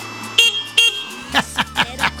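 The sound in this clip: A car horn honks twice in quick succession, two short, bright, steady blasts, followed by a few moments of people talking.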